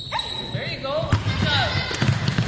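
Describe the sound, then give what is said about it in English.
A few dull thuds of a basketball being dribbled during a women's team practice in the Brian Coyle Center gym, mixed with high chirping squeaks and background voices. “Back in the Brian Coyle Center gym, the Lady Warriors are practicing their shooting, passing, and ball handling. Now, they can finally practice dribbling between the legs.”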